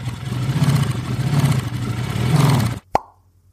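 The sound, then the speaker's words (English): A motorcycle with a sidecar is cranked up, its engine a low, pulsing throb that holds steady, then cuts off abruptly and is followed by a single sharp pop. “the wee man gets back into the sidecar. We wave a hand and a paw and goodbye, and before the trial goes much further, I crank up the cryptocycle and”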